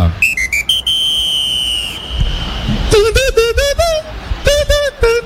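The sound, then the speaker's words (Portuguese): A referee's whistle ends the first half of a Flamengo versus Fluminense football match at the Maracanã, with several short and long shrill blasts under a commentator's voice. “Quando apita pela última vez, Rafael Rodrigo Klein, final do primeiro tempo.”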